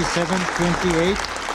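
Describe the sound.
Applause at the United Nations after a Gaza ceasefire resolution was adopted. Steady, dense clapping continues throughout, with a voice talking over it.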